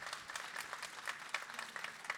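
Audience applause at a panel discussion, a faint, steady patter of many hands clapping throughout, without a clear rise or fall.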